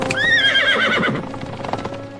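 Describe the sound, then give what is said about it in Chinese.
A horse pulling a general's carriage whinnies at the start while its hooves clip-clop steadily throughout, a quick patter of hoof strikes that softens toward the end. “大人，前方是廉颇将军的马车，咱们绕路，让廉颇将军的车先过。”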